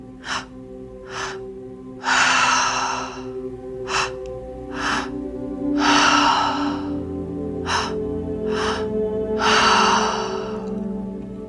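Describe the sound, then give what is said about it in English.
Deep breathing exercise, breathing in through the belly and chest and out through the mouth: several loud, breathy exhales alternate with shorter intakes in a steady rhythm over a low sustained tonal background, with no talking. “So breathe into your belly first, then into your chest, and out through your mouth. Now do that continuously.”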